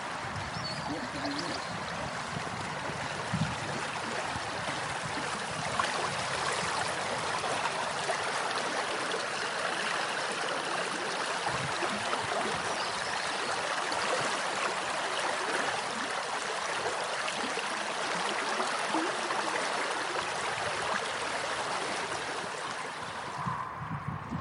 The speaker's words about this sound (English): this is a lovely little river to Yarty. There's a lot going for it, so I'm going to record a bit of the sound of the Yarty. It's a different song, isn't it?